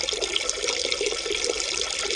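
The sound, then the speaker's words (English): Water runs from a tap into a sink in a steady, unbroken hissing splash, even in loudness throughout with no pauses. “At last, the water began to slow down.”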